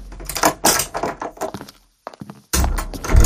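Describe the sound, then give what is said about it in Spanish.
Doors opening at floor minus two, heard as a run of thuds and mechanical clunks. The sounds drop to a brief near-silence, then a loud, rumbling clunk follows. “Abriendo puertas.”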